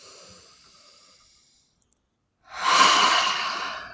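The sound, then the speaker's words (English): A single deep breath taken during a guided tapping exercise, coming after a near-silent pause as one long, airy rush that starts strong and gradually tapers off. “Deep breath.”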